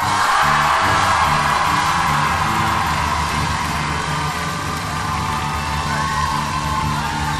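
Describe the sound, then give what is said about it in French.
A concert audience gives an ovation for the band's sound engineer. Loud yells, whoops and cheers merge into a sustained roar that keeps a steady level throughout. “Je voudrais une ovation à Antoine Cognam.”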